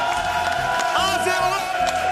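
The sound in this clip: A studio audience cheers and claps in an applause vote for mountain-style rösti against poutine. The cheering is steady and moderately loud, with clapping and whoops running through it.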